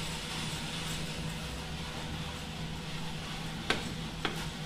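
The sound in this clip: Coffee beans roast in a coffee roaster with a steady, even whooshing rush over a low constant hum. Two sharp little clicks pop out near the end.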